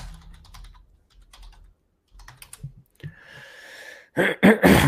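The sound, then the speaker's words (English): Typing on a computer keyboard at a command line: irregular bursts of light key clicks with short pauses between them, and no talk. “Maybe if I type schizophrenia.”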